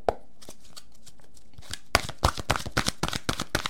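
Oracle cards are shuffled and drawn, a rapid series of papery slaps and riffles, soft and sparse at first, then louder and denser through the second half.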